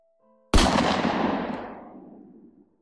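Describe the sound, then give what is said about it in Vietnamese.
A single gunshot, a live round rather than a rubber bullet, fired at a container yard: one sharp, loud crack followed by a long echo that slowly fades away, with no other sound. “một tiếng súng vang vọng trong không trung. Nó phát ra từ phía dưới bãi container.”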